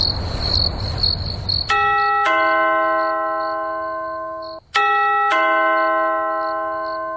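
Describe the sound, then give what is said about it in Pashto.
A doorbell at a door chimes a two-note ding-dong twice, each clear tone ringing and slowly fading. A short noisy hiss comes before the first chime. “د دروازې زنګ ووهل شو ته ورڅ وګوره چې څوک دي.”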